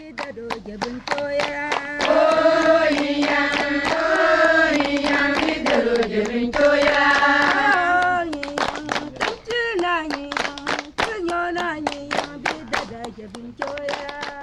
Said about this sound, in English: Before I can ask any questions about their loan circles, they greet me with a traditional welcome song.